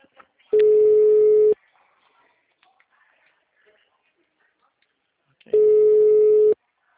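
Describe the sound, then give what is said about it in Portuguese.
A telephone call rings without being answered: two long, steady electronic tones of about a second each, separated by several seconds of near silence. “Ele não responde? Vem que falar com ele na ligação.”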